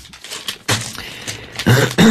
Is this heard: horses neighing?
no